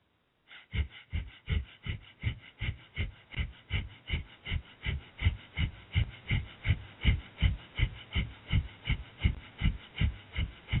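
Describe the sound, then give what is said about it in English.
Breath of fire yoga breathing, with many sharp, forceful exhales pulsing about twice a second in a steady, even rhythm for the whole stretch. No one talks. “And continue with breath of fire for 1 minute.”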